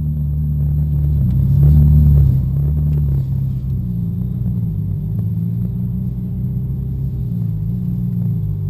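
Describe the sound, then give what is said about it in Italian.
A Ferrari engine roars with a deep, continuous low rumble. It swells louder for a moment early on, then settles into a steady, heavy drone. “Questo è il rombo di una Ferrari.”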